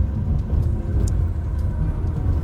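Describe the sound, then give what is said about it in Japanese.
Loud, steady road and engine rumble fills the cabin of a moving Rubicon on a drive, a low continuous drone with faint higher hiss on top and no speech. “やっぱり今までの車と違ってちょっと騒音がすごくて申し訳ないんですけども”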